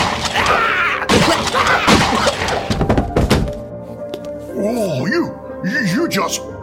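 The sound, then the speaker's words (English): A pistol fires a dragon-venom bullet: a loud, sharp blast with noisy clatter. Voices come before and after it, and strained, wavering vocal sounds rise and fall near the end. “Is that a pistol? Yes, it is. Oh, Pale Man, you know bullets have no effect on me. Oh, you're right. Normal bullets don't. Ones with dragon venom, on the other hand...”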